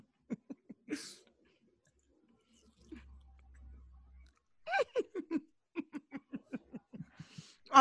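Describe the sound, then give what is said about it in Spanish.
People chew food on camera, making many short, wet mouth clicks and smacks in rhythmic bursts. A quiet pause falls in the middle before a busier run of chewing sounds. “Estamos comiendo en cámara.”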